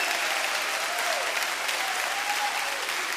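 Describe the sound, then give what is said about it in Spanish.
Loud, steady applause from a church audience during worship, a dense continuous patter of clapping hands that holds at an even level throughout with a faint voice or cheer rising briefly over it. “Dale ese aplauso fuerte.”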